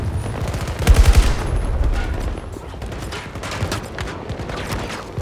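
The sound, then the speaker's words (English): AK rifle gunfire in a video game, shooting across the length of a boat: rapid automatic bursts of sharp cracks, peaking loudly near the start and then continuing as quicker, lighter volleys. “Oh, I just shot him the whole length of the boat. Took him down. The AK is better than I thought.”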